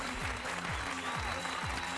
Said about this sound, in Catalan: I tenim aplaudiments i tot